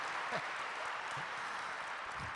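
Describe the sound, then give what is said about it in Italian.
Soft, sustained audience applause for a young boy on a talk programme, a continuous even patter of many hands, with faint traces of a voice briefly heard underneath. “facciamo un applauso”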